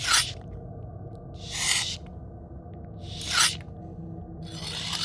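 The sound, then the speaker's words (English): A metal blade scrapes against a whetstone as a sound effect in a tabletop role-playing game. There are four separate rasping strokes, evenly spaced and harsh, with a faint low hum in the quiet gaps between them. “like the sound of something against a whetstone.”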